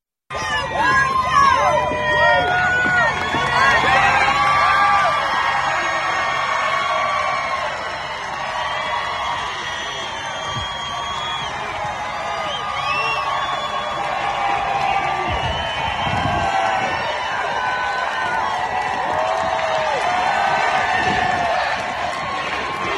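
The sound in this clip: Crowd cheering at a Trump rally in Georgia: a dense, loud roar of many voices with shouts and whoops, holding steady for about twenty-three seconds.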